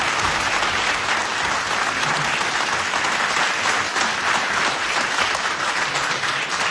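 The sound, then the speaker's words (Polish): Applause from people in a radio studio, a thick, continuous wash of many hands clapping at a constant loudness from start to finish, with no pauses or swells. “Proszę państwa, brawa dla Bogdana.”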